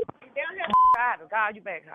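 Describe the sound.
A single telephone keypad tone beeps briefly while a call is being set up for three-way calling, sounding in the middle of continuous talking voices.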